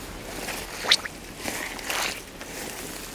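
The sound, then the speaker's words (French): Wet squelching footsteps through stagnant brackish water over alluvial silt: a few soft, squishy steps with sloppy splashes, moderately loud and irregular, with no voices. “Là, on vient de marcher sur une des origines du monde. C'est tout dégueu, il y a de l'eau saumâtre un peu qui croupit.”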